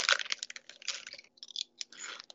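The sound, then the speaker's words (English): Crunching and chewing of lime and cracked pepper potato chips: many crisp, dry bursts in an irregular rhythm, with brief pauses between bites and no talk. “Yeah, lime and cracked pepper chips, not very good.”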